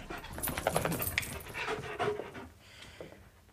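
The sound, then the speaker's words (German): A dog pants rapidly and steadily on a sofa in a house, the quick breathy puffs fairly loud at first and growing fainter toward the end. “Rufen Sie den Hund zurück, der hat auf dem Sofa nichts verloren.”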